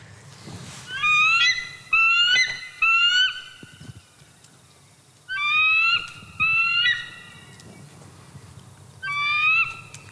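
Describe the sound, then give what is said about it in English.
A bald eagle calls in six bursts of high, thin, chattering whistled notes, each a quick string of falling chirps, with gaps between the groups and a faint low rumble underneath. “I think today's mystery sound is the call of the bald eagle.”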